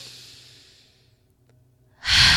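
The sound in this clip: Slow breathing: a long, soft exhale that fades away, a quiet pause, then a sudden, louder breath at the end.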